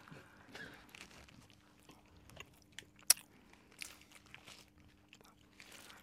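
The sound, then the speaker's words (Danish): A whole cold cheeseburger is chewed, giving faint, irregular wet mouth sounds and soft crunches throughout, with one sharper click partway through and no talking. “bare veldig, veldig vanskelig å spise en hel cheeseburger helt alene”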